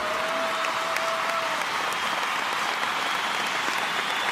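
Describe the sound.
Applause from a crowd: dense, even clapping that holds at a steady level for the whole stretch, with no break or swell.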